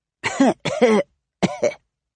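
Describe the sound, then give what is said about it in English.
Coughing from someone with the flu: a few harsh, throaty bursts in quick succession, loud and voiced, with a short pause before the last. The coughs sound performed by a voice rather than spontaneous. “You get a cough with the flu, don't you?”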